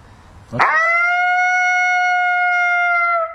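A single lonesome howl call, loud and crisp, opens with a sharp rising attack and then holds one steady, clear pitch for almost three seconds before cutting off abruptly.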